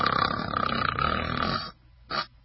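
A person imitates snoring while asleep with one long, loud, rattling snore. After a brief pause comes a short second snort.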